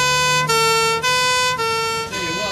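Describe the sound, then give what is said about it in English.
An ambulance siren switches between two pitches about every half second in a steady, loud two-tone pattern that continues through the whole stretch. “Look out for that ambulance!”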